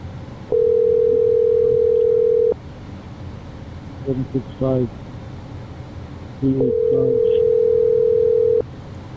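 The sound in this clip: A telephone dialing a number on its own: a long, steady tone, then short clusters of keypad tones, then a second long, steady tone.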